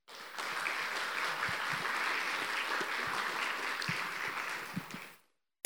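Sustained audience applause welcomes a pastor to the stage at a church service. The dense, even clapping begins abruptly, holds steady for about five seconds, then fades out.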